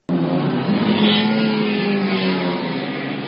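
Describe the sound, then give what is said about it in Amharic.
Loud engine roar at a car and motorcycle race held near Bet Giorgis in Asmara to mark Eritrea's independence day: a sustained, powerful drone that starts abruptly and stays strong throughout. “28ኛው የኤርትራን ነጻነት በዓል ምክንያት በማድረግ እሁድ ሰኔ 9 2011 ዓ.ም አስመራ ቤተ ጊዮርጊስ አካባቢ የመኪናና የሞተር ብስክሌት ውድድሮች ተካሂደዋል”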